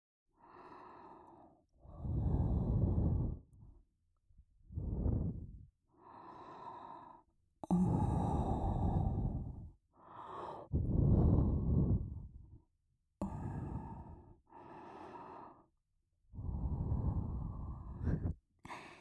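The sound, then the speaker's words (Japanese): Soft puffs of breath blown out again and again, many long exhalations separated by short silent pauses, some breathier and stronger than others. “ふうってするたびにビクビクしちゃって。”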